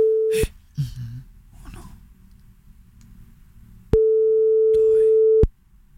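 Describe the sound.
A telephone tone sounds after a number is dialed: two steady, mid-pitched tones, the first cut short at the start. Between them come faint rustling, breathing and handling noises.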